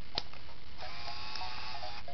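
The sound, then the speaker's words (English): A printer switching on and feeding paper: a sharp click, then a steady whirring motor hum with a faint high whine that runs to the end. “And now we'll turn the printer on.”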